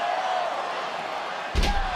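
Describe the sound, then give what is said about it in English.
A wrestler is slammed onto the ring by a powerbomb at a wrestling show, a single heavy, deep thud that bursts out over a steady wash of crowd noise. “Powerbomb stacks Stratton. Stratton trying her best to cling onto those ropes, prevent that slam there from Liv Morgan, but failing in the process.”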